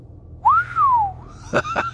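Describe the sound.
One person whistles a single clear note that leaps up sharply and then slides slowly downward in pitch. It is fairly loud and stands alone against a quiet background.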